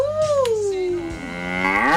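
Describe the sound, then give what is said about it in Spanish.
A cow moos once in a long, loud, drawn-out call. Its tone sinks low through the middle and then rises again toward the end, with no talk over it. “Ah, yeah, la vaca enamorada.”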